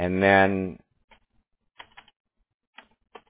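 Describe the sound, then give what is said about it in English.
Typing on a computer keyboard: a voice speaks briefly at the start, then scattered quiet keystrokes follow in short irregular bursts with silent gaps between them. “Okay, perfect. I have to type it in twice.”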